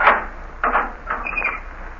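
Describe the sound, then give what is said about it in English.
Unlocking of a prison cell door as a radio drama sound effect: three short, hard mechanical clanks, the last trailing into a brief, higher metallic scrape. “Unlock the door, Gus. Right, Warden.”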